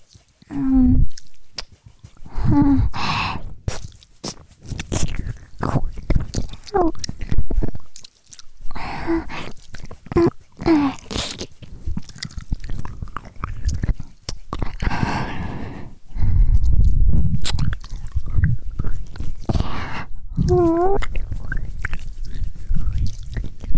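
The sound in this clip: Wet licking and smacking mouth sounds of ear licking, continuous and close throughout, with frequent soft voiced moans and breathy sounds mixed in.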